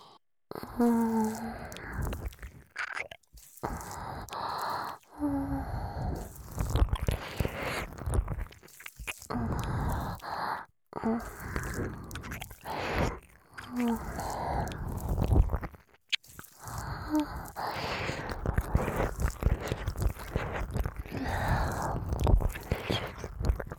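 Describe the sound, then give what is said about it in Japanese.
Wet ASMR ear-licking and mouth sounds, soft smacking, licking and squelching close to the ear, running almost continuously with a few short pauses and no speech. “お詫びに愛情を込めてお耳舐めさせていただきますから許してくださーい。”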